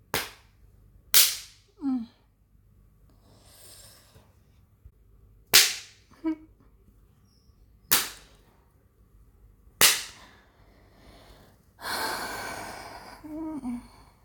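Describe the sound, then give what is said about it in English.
Spanking on bare skin: five sharp, loud slaps spaced irregularly. Some are followed by short vocal gasps or sighs, and a longer breathy exhale comes near the end. “Do you think I should try spanking some places other than my ass?”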